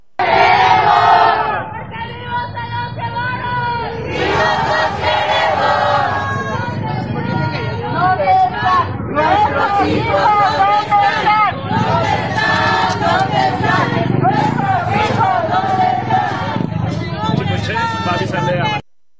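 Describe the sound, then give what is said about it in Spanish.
Search collectives marching along Calzada de Tlalpan in a protest over disappearances chant and shout in unison, a loud, continuous mass of crowd voices that rises and falls rhythmically throughout. “¿Dónde están? Es lo que señalaron colectivos de búsqueda que continúan su marcha sobre la calzada de Tlalpan para visibilizar la crisis de desapariciones en el marco de la inauguración del Mundial.”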